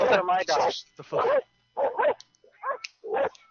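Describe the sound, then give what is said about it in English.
Dog barking in the background, heard as a few sharp barks and higher yips in short, separate bursts with brief pauses between them. “Oh my god, now the dog's in the background. Can you please tell that dog to shut the fuck up? Would you slap that fucking dog?”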